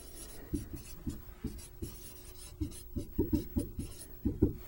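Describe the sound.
A pen scratches across paper as a calculus derivative is written out by hand: faint, irregular strokes and taps in short bursts, quicker and denser toward the end.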